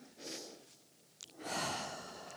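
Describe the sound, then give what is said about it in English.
A deep breath taken during a church sermon before a prayer: a faint, airy intake followed after a pause by a longer, louder breathy exhale, with a tiny click between them. “So I just want you to take a deep breath with me.”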